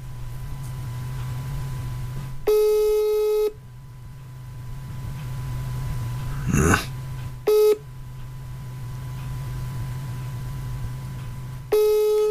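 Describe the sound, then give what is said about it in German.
Telephone ringback tone on an outgoing call, a steady buzzy tone sounding in three separate bursts several seconds apart, the middle one shorter, over a low constant hum with a brief rustle just before the second burst. “Ja, jetzt versuche ich nochmal Zecke anzurufen.”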